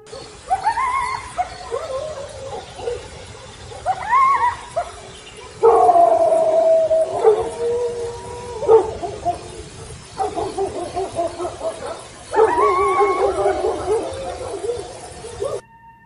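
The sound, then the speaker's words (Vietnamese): Dogs bark and howl across a village in several separate drawn-out bursts with pauses between them. “Dương chưa kịp định thần thì tiếng chó sủa ma đã vang vọng khắp cả dãy làng.”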